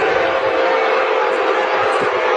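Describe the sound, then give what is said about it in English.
A loud, sustained roar from the crowd at a college football game as Arkansas sends on the punter. It is a dense, steady wall of noise that holds its level throughout. “the crowd that's here lets us know that their lungs are in good shape”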